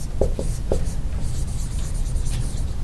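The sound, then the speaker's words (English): Marker or chalk writing on a board during a lecture: a few short, sharp strokes early on, then softer, steady scratching over a constant low hum, with no voices. “Let me write that up.”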